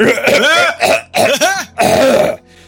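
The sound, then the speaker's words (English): A person clears their throat loudly and forcefully in four harsh, voiced bursts, ending with a short quiet tail. “She needed the contact, so I took up the task and cleared my throat.”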